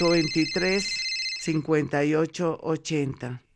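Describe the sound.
A telephone rings with an incoming call, a high, steady electronic ring heard at the start beneath a talking voice, which carries on after the ringing stops.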